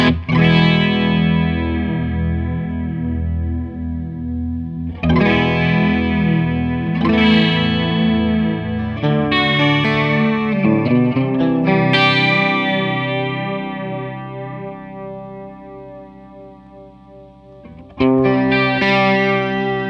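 Electric guitar through a TC Electronic Chorus Flanger pedal with the intensity set high: distorted chords and notes with a swirling, sweeping modulation, several struck in turn and left ringing, fading low before a fresh strum near the end.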